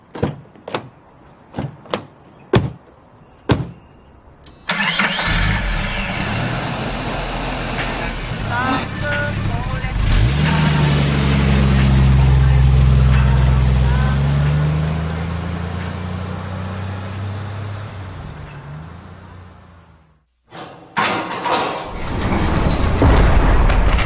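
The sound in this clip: A car engine starts and the vehicle drives off after several sharp clicks and knocks. A loud, sustained engine drone follows, its low tones swelling in the middle, then it briefly cuts out before the noise resumes.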